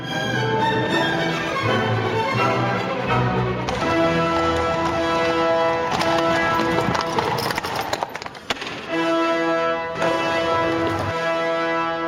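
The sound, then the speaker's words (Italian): Hooves of a horse-drawn carriage arriving in Turin in 1861 clip-clop in a steady rhythm, running under sustained music throughout. “Una carrozza arriva a Torino dopo un lungo viaggio.”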